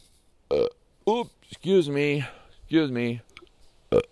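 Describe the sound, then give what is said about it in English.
Burps after a supper of fish, potatoes and fresh tomatoes: several voiced, tonal belches of uneven length, some short and clipped, others long and drawn out, with brief pauses between them. “Now I'm burping and it smells like fish.”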